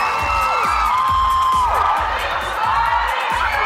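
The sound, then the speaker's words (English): Hundreds of excited fans cheer after a concert in Gateshead for a 58-year-old performer, a loud, dense roar of crowd noise with whoops and shouts rising over it throughout. “Hundreds of excited fans cheered for the 58-year-old after a concert last night in Gateshead.”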